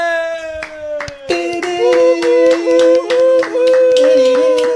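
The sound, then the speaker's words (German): Audience clapping at a show in the Stadthalle Böblingen, sharp claps that settle into a steady rhythm over sustained musical tones. “Applaus.”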